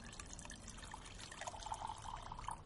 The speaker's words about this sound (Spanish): En la cocina se sirve un té.